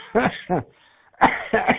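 Coughing from a seventy-year-old man: a few harsh, fairly loud coughs in two groups separated by a short quiet gap, with no talking between them.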